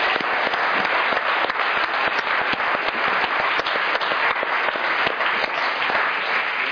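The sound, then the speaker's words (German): Audience applause for a handful of people in the crowd, dense and steady throughout, a continuous wash of many hands clapping at even loudness with no voices standing out. “Let's give them a hand. Good. Klatschen wir noch für very sie.”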